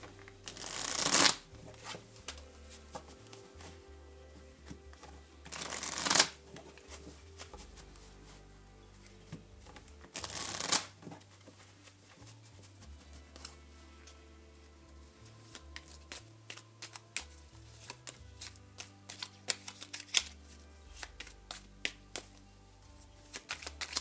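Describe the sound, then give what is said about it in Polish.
Tarot cards being shuffled in rapid, papery riffles and flicks, with three louder bursts early on and softer, continuous card clatter afterward. No talking. “teraz karty Tarota.”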